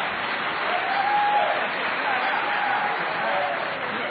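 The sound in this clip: Audience applause at a live public debate, a continuous, even roar of clapping from a large crowd, sustained at a steady level throughout and sounding somewhat muffled.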